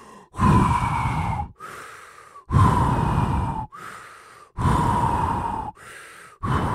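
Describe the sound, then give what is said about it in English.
Forceful breaths blown through new rubber tubing to inflate a pool toy: three long, loud blows with a hollow whistling tone and a fourth just beginning, separated by shorter, quieter inhalations in a steady rhythm. “I love the taste of freshly manufactured rubber tubing. Very unique flavor all over my mouth now suddenly. And let's start blowing.”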